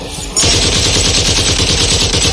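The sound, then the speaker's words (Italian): Automatic gunfire from a soldier's weapon in a Vietnam War setting breaks in abruptly and keeps going as a loud, dense, unbroken rattle of rapid shots. “A chi spari, soldato?”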